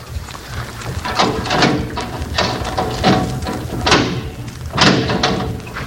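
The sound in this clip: Heavy steel door being opened in a prison during an armed assault: a few loud, dull clanks and thuds recur over a steady, rumbling noise bed.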